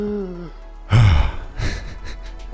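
A person gasps for breath away from the microphone: a brief voiced glide falling in pitch, then two harsh, breathy gasps.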